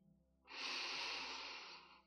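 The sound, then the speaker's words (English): One slow, deep breath is drawn in, a soft airy inhalation that swells after a brief pause and holds steady for over a second before easing off, heard alone. “take a deep breath in”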